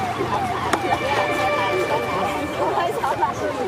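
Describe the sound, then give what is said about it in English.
Crowd chatter from spectators gathered where the Qiantang River meets the East China Sea to watch the tidal bore, a dense, steady babble of many voices with one sharp click near the start. “Where the Qiantang River meets the East China Sea, crowds gather to witness one of the planet's most remarkable wild spectacles.”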